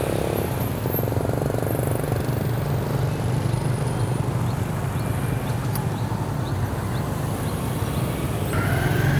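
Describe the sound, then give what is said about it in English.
Road traffic in Siem Reap, Cambodia, where traffic is usually fairly slow, heard while crossing the road toward the Angkor Wat ruins: a steady, loud rumble of vehicles that continues without a break, with no voices. “It's not that hard to cross safely here. The traffic usually is fairly slow, especially in Siem Reap.”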